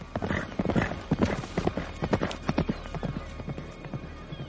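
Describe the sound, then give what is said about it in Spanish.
Hooves of a black horse galloping away after being freed from nets, in a medieval setting: rapid clip-clop beats, strong at first and growing fainter toward the end. “Se acerca al caballo negro que está atrapado entre las redes. Lo libera. El animal se aleja al galope.”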